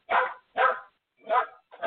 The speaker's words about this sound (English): I'm going to try to sing over the dog if I can.